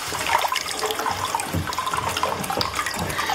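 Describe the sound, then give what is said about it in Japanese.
A continuous flow of hot spring water pours straight from the source into a bath. It makes a steady, loud rush and splash with bubbling, unbroken throughout and heard alone. “かけ流しですって、こう源泉ね、ちょっとぬるめになってますが、このね、とろっとしていますよ、ちょっとお湯がね”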